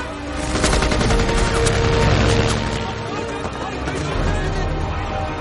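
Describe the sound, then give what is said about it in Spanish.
Machine gun fire from a soldier in a war film: rapid bursts of automatic shots, densest in the first half, within a loud, dense mix of action noise. “Un soldado le apunta con una metralleta.”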